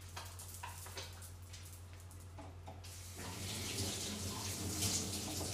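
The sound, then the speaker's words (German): Hands are washed under running tap water. A steady, splashing stream starts partway through and stays loud to the end, after quieter faint clicks and handling noises. “Ich wasche. bitte meine Hände. So, ich wasche sie gerade.”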